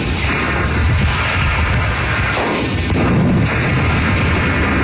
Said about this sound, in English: This guy filled his Yeti with explosives, shot it with a gun, watched it explode, and put the whole thing on YouTube.